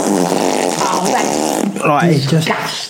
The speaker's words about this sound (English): Honestly, just this massive fart.